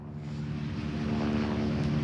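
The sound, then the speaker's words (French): Steady low drone of a water-bombing helicopter with a 1000-litre capacity flying over a wildfire in the Aude, holding a constant, even engine and rotor rumble throughout with no talk. “regardez à l'instant, vous avez un hélicoptère bombardé d'eau qui survole la zone.”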